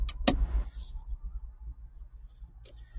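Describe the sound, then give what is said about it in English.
A car on the road gives a low, steady engine rumble throughout, with a sharp click near the start and a fainter one toward the end. “All right, so I'm going to get on the road here, and we're going to be talking on the road.”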